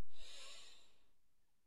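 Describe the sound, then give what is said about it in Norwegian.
A single soft breath during a guided breathing exercise: a faint, breathy hiss that fades out over about a second, heard alone with no talk. “da begynner vi med å puste inn og ut.”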